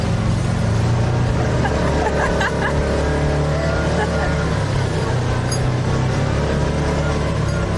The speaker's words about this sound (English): This is the ultimate four-wheel driving. Oh, yes, we are going up this. Here we go.